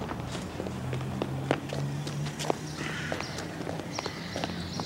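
A man walks quickly along a residential street. His footsteps are a run of light, irregular taps over constant background noise.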